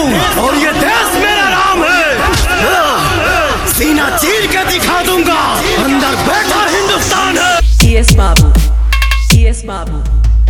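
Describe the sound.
Loud crowd chanting of the slogan "Hindustan Zindabad" in a DJ mix. Yelled, repeated voices ride over dense, pounding music that stays at full volume throughout.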